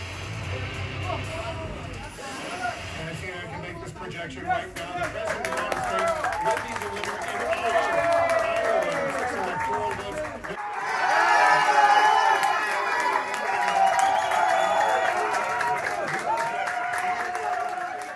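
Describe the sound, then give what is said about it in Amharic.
Crowd applause and cheering fill an election-night results gathering, a sustained, busy roar of clapping mixed with shouting voices that swells louder partway through and stays strong to the end. “ከታወቁት ግዛቶች የሚመጡት የምርጫ ድምፅ ቆጠራ ውጤቶች እንደተጠበቁ በየጣቢያው የቴሌቪዥን ጋዜጠኞች ይፋ ሲደረጉም ሆነ ገና ያለየላቸው ግዛቶች ግምት ሲገለጥ ውጤቱ ለእጩዋቸው ሲሰምር ሞቅ ያለ ጭብጨባ ይከተላል።”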